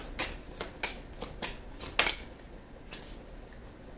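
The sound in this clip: Tarot cards shuffled before a card is drawn: a quick string of crisp, papery snaps and slides, irregularly spaced and fairly soft, with no talk over them.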